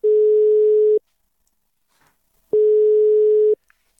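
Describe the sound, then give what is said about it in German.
Ringing tone of an outgoing telephone call: two steady, mid-pitched tones, each about one second long, separated by roughly a second and a half of silence, with no voices. “ich habe ganz einfach Gerd Hillmann angerufen. Hören wir mal rein in das Gespräch.”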